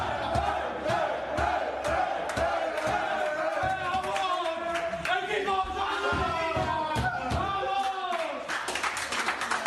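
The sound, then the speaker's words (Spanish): Football team celebrating wildly in the locker room right after a match: loud overlapping shouts and chanting voices over steady rhythmic clapping, continuous throughout. “esto es el sonido de vuestro vestuario nada más acabar el partido, una auténtica locura.”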